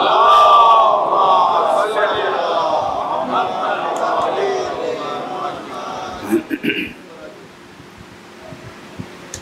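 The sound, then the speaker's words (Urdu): A crowd chants its response to the Naara-e-Haidari slogan at a religious sermon. Loud massed voices shout together, hold for several seconds, then break off into a few scattered sounds and quieter background. “نعرہ حیدری پر محمد وآل محمد سلام”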